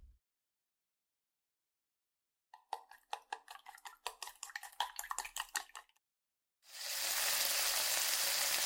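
Tamagoyaki rolled omelette cooking in a pan: a run of quick clinking and tapping utensil strokes, a pause, then a loud, steady sizzle of frying.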